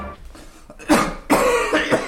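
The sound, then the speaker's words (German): A man with a bad, chesty cough gives three harsh, throaty coughs in quick succession, loud and alone with no talk. “Sie husten sich ja die halbe Lunge raus.”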